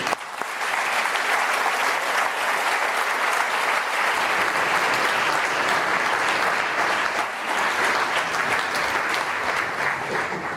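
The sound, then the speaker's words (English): Audience applause welcomes a speaker at the LSE, dense and steady clapping that swells quickly and holds at an even level for about ten seconds with no talking. “please join me in giving Neil Ferguson a warm LSE welcome.”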